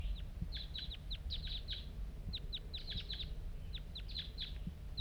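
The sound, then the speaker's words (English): A lone wild bird calls close by in quick bursts of short, high chirps. The chirps come in irregular clusters over a soft low background rumble, with no talking. “Here it comes. One lone bird. And it's real nearby right now.”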